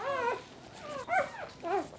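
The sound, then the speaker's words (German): Soft, high dog whimpers come from a first-time mother dog with her newborn puppies: a few short, quiet whines that rise and fall, separated by faint pauses. “Ich denke, Perle ist erschöpft, aber zufrieden mit ihren Welpen. Sie ist jetzt gerade das erste Mal in ihrem Leben Mama geworden.”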